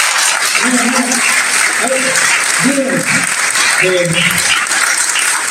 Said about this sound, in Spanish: Este equipo también de la provincia, maravilloso, es un equipo hermoso y que se merece un aplauso también